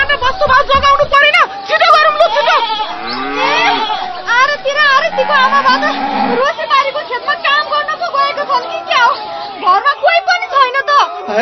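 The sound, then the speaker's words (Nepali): Cattle lowing as villagers lead cows and goats away to safety from a burning house, several drawn-out moos rising over a busy background of people and children talking. “Durga प्रसादका गाई, बाख्रा र धन सम्पत्ति सुरक्षित ठाउँतर्फ लगे।”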